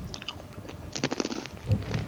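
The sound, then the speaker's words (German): Crunchy pretzel being chewed: faint, irregular crisp crunches and softer mouth sounds, with a denser cluster of bites in the middle. “Ich könnte mal wieder eine Brezel essen, was? Hat lange nicht geknuspert.”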